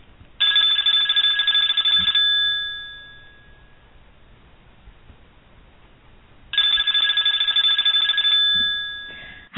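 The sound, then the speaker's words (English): A telephone bell rings from a switchboard as a call comes in. Two bright, loud bursts of rapid metallic ringing last about two seconds each and are separated by a quiet gap. “Looks like another call coming in from our switchboard operator.”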